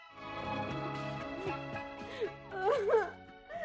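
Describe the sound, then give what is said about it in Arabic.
A woman cries in a dramatic scene, letting out wavering, moaning sobs that grow louder and higher-pitched toward the end. “بطلي عياط”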